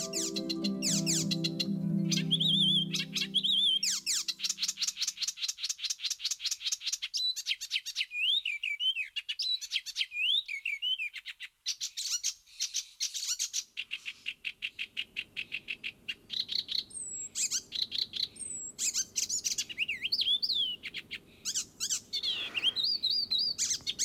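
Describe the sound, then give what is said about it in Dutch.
Icterine warbler song along a Dutch roadside among flowering cow parsley, oaks and alders, mimicking a song thrush: a long, rapid stream of sharp, high, varied chirps, whistles and chattering phrases, with brief gaps, heard alone. “Aan de Grootginkelse weg hoor ik eindelijk dat zangvogeltje. Het imiteert de zanglijster, maar zijn scherpe stem verraadt hem. Bovenbloeiend fluitenkruid vliegt hij van eik naar els, de spotvogel.”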